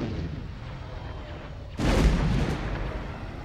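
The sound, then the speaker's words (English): A-Wing fighters launch concussion missiles at a destroyer's shield generators in a space battle. A sudden, loud rushing blast breaks over a steady rumble and holds to the end. “A-Wing fighters target that destroyer with concussion missiles. Affirmative, Green Leader. Missiles locked onto shield generators. Missiles away.”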